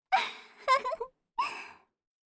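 Heavy, voiced panting: a quick cluster of gasping huffs in the first second, then one more breathy gasp after a short pause, each fairly loud and sighing.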